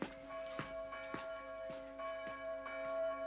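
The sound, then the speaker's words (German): A church bell rings for a baptism, faint and quiet, with a steady series of strikes about every half second over a sustained, humming ring. “Die Glocke ruft, der Täufling wird in die Kirche getragen.”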